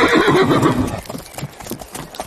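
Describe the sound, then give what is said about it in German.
A Shetland pony gives a loud whinny, then hooves clip-clop in an uneven, steady patter as a ride sets off. “Vertrau auf dein Pony, das hat eine Menge Erfahrung. So, jetzt steige ich auch noch auf. Und dann reiten wir los.”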